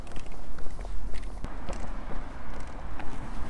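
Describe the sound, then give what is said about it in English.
Footsteps of a person walking along a street, soft and irregular, set over a steady low rumble. “I'm now walking along Summerlin Drive, headed towards the busy Northern Way.”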